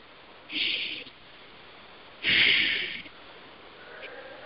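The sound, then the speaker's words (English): Deep breaths taken during a guided healing exercise: two long, hissing rushes of air with a pause between them, followed by a fainter stir of breath near the end. “And take 3 nice deep breaths.”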